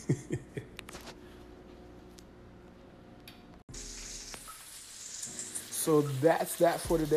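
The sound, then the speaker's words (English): Food sizzling as it cooks, a soft crackling hiss that swells noticeably louder and busier in the second half, with a person talking over the early part. “You can probably hear my food cooking in the background.”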